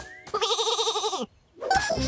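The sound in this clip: A sheep bleats in one long, wavering, quavering call lasting about a second as it is drawn into a shearing machine, followed by a short pause and then more noise.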